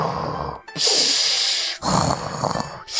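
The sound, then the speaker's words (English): Wheezing, raspy breaths drawn through a scowling demon mask with protruding sharp teeth that filters dust from the air; a few long, loud, hissing inhales and exhales follow one another with brief gaps and no voices. “And as they breathe, you hear a wheezing”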